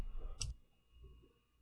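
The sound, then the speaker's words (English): A single sharp click from a laptop touchpad button, faint and brief, standing out once against a quiet low background hum. “pressing the right click and the left click can be a little tricky on a touchpad.”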